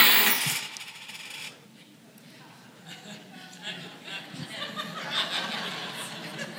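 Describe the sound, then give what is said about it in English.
Coins are thrown into a collection box with a clattering metallic burst, followed by scattered jingles and clinks. Soft chuckling is heard alongside. “coins and you put it, and the word literally means threw it, not put it, they didn't place it, they literally threw it, it would make a noise.”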